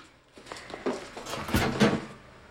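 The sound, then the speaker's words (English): An oven door swings open on a roasting joint of beef, giving a few soft clunks and rattles from the hinged door at moderate to low volume. “Sure, open the oven. She does so”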